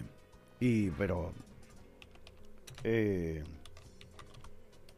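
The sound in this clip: Typing on a computer keyboard: steady, light key clicks continue throughout, with two short voiced sounds from a person over the tapping.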